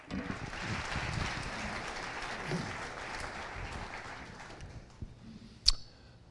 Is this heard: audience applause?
yes